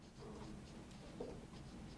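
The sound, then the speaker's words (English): Pen or pencil scratching on paper as people write a word, a faint, steady scratching that runs through the whole stretch with small irregular strokes. “I want you to write the word spotlight.”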